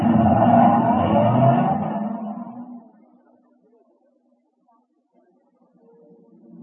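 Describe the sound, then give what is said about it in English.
A station wagon's engine hums loudly and steadily, then fades out over about three seconds. Near silence and a faint low murmur follow. “Well, young man, how far do you think this beautiful station wagon will take us?”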